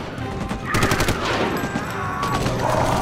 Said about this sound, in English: Keep firing with the 50 cals!